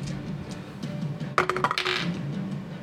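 A ten-sided die is rolled during a tabletop game. It makes a quick cluster of clattering clicks lasting about half a second over faint, steady background noise.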